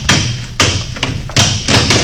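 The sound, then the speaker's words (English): Heavy blows smash open a lock at a newspaper printing office, landing as a few loud, dull thuds spaced about half a second apart, each with a sharp crack. “Smash that lock.”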